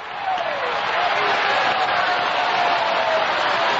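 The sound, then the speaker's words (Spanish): A church audience claps continuously during a worship service, a dense, even wash of many hands that swells in after a quieter start and holds steady at a loud level. “sigue aplaudiendo ahí. Se va a sanar aplaudiendo, se va a libertar aplaudiendo. Aplauda ahí.”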